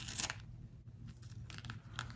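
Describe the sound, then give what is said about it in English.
A sticker is ripped off an item in a few quick, crackly tearing bursts of papery crinkle, with quiet gaps between them. “Does that make a good ripping sound? Let's see.”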